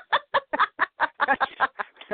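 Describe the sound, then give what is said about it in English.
Chickens clucking: many short, sharp clucks in a quick, uneven rhythm, fairly loud and closely spaced, with no human voices. “They're all her chickens.”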